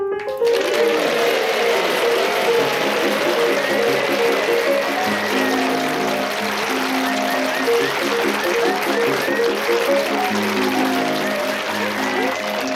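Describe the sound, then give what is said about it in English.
Chopin's Minute Waltz plays as the theme music of a comedy panel game. Fast, rippling piano runs and quick notes continue steadily at a bright, lively pace throughout. “And as the minute waltz fades away into the background”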